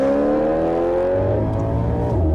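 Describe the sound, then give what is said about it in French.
A car engine drones loudly and steadily as the car pulls out from behind another car at a red light, with a continuous hum that shifts slightly in pitch partway through. “Il s'arrête derrière une autre voiture à un feu rouge. Il tapote sur le volant. Il déboîte.”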